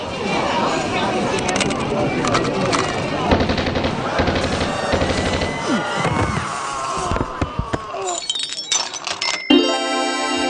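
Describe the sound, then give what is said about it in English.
Rapid machine gun fire, a sound effect for a comedic 'Powwow machine gun', rattles in dense continuous bursts under loud shouting voices, then thins into scattered shots near the end. “The Powwow machine gun is perfect for all types of situations.”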